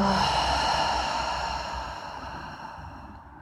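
Deep breathing during a guided relaxation exercise: one long, continuous, airy exhale, steady at first and then gradually fading.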